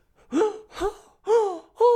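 Four sharp, dramatic gasps performed by a person in an exaggerated, melodramatic silent-film style, each a short breathy intake with a voiced edge, separated by brief pauses.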